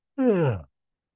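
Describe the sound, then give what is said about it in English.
A single voiced, yawn-like exhalation lasts about half a second, its tone sliding downward before it stops, heard alone against silence. “So, the yawning has started.”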